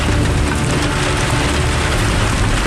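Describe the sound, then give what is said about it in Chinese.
Heavy rain pouring down on the way into the mountains, a loud, dense, unbroken hiss that holds steady throughout. “今天这个雨有点太大了，估计这个还打雷”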